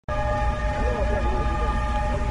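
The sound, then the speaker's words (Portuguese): A fully loaded China-Europe freight train leaving the distribution centre in Urumqi, Xinjiang, its heavy rumble starting abruptly and holding steady under a sustained tonal, horn-like drone. “Em abril deste ano, um trem com sua carga máxima deixava lentamente o centro de distribuição dos trens de carga China-Europa, em Urumqi, capital da região autônoma Uigur de Xinjiang.”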